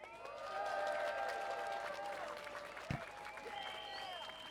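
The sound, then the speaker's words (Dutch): Crowd applause at a street protest for solidarity and against fascism, a sustained, fairly quiet wash of clapping that holds steady without clear breaks. “Mag ik alsjeblieft voor hun allemaal een applaus?”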